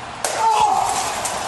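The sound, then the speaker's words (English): A bottle smashed over a wrestler's head during a wrestling match: one sudden sharp crack followed by a brief noisy ring, with voices talking over it. “a bottle over the head”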